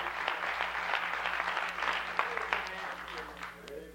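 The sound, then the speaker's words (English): A church audience applauds to welcome a guest speaker, with steady, moderately loud clapping throughout and a voice talking over it. “let's welcome him with giving him a great big hand offering tonight”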